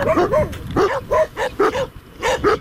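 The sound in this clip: Dogs that live at a garbage landfill bark in a run of sharp, fairly high yips and barks. They come in quick bursts with short gaps between them, and some have a whining, whimpering edge.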